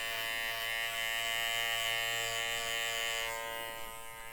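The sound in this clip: An electric shaver buzzes while shaving chest and neck hair, a steady, even drone with a rich harmonic hum. It holds level throughout and eases off slightly near the end.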